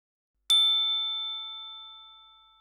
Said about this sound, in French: Le loup, il sonne à la porte.